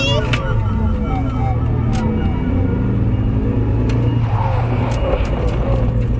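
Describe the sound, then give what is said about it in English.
A car engine roars steadily as the car makes a U-turn and speeds home. The low drone is loud and continuous, with slight surges in revving. “I pulled a U-turn and drove home as fast as I could.”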